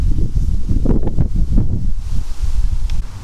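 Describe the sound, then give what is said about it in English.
Wind gusting outdoors and buffeting the microphone, a loud, low, rumbling roar that surges and eases in uneven waves, with a faint rustle above it and no talk. “here comes the wind”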